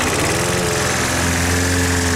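A lawn mower engine runs with a loud, continuous droning hum and a steady low rumble, heard alone without talk.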